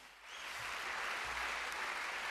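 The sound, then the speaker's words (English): Warm audience applause at a small presentation, swelling in the first half second and then holding as a dense, steady wash of clapping. “Okay, a warm applause.”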